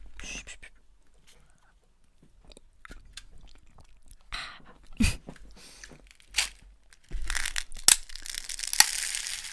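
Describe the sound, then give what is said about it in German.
A two-compartment yogurt cup is folded, giving crinkly plastic crackles and crunches in a few short bursts that grow into a longer, louder rustling stretch near the end, over a quiet background. “Das ist laut. Das ist richtig. Wir haben einfach einen Knickjoghurt.”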